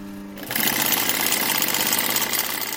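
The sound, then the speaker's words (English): Donated sewing machine stitching pieces of leather for handmade bags and wallets, a steady, busy mechanical whir that starts after a brief low hum and runs continuously and evenly at a moderate level. “stitches a few pieces of leather on a machine that's been donated to them”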